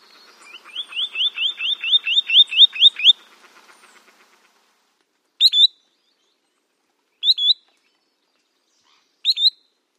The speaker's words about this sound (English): It's a spotted sandpiper, and we've played both its song and call for you.